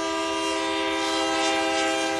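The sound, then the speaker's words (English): A coal train sounds its horn on the rails, a loud sustained multi-note chord held steadily from start to finish over low rumbling rail noise. “Right now, coal trains are one of the most visible signs of this state's status as an energy corridor.”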